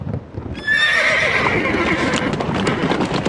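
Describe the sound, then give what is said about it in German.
A horse whinnies loudly as a horse-drawn coach sets off, followed by continuous clattering hoofbeats, with no voices. “Kutsche nach Bukowina! Alle Passagiere einsteigen!”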